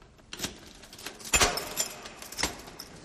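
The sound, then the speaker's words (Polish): Keys rattle and scrape in a sticking door lock. A few sharp metallic jangles and clicks stand out, the loudest near the middle, over a faint, noisy background. “Klucze w zamku się zacinają”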